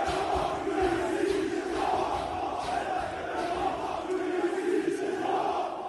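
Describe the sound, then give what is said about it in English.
Loud massed shouting from an angry crowd at a street protest in France after a child's death, a dense, steady roar of many voices that holds at full strength across the whole stretch without any single voice standing out. “Loud, angry individuals.”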